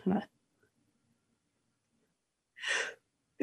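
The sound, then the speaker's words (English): A person sneezing: one short, forceful, breathy burst that comes after a few seconds of near silence. “But I'm about to sneeze, so.”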